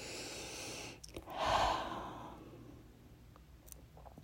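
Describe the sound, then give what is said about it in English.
A deep breath drawn in during a guided breathing practice: one soft, airy inhalation swells and then fades away, quiet and alone with no talking. “I'm taking another breath in”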